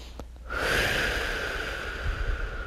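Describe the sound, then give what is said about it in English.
A single deep breath, a soft airy rush that swells quickly and holds steady for about two seconds, faint and alone. “Take a deep breath.”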